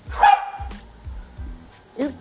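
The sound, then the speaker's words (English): Dogs bark in a few short, sharp bursts while a person talks over them. “dogs are done barking”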